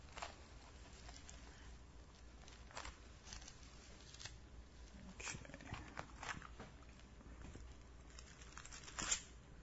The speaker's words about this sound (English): I want you guys to flip in your books to Psalm 19.